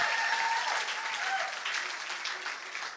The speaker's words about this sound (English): Make some noise for your pastors one more time.